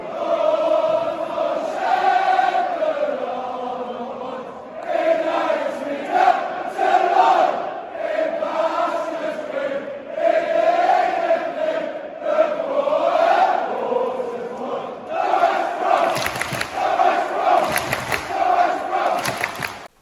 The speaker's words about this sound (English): Marvellous sound there of the West Brom choir from the Brummy Road.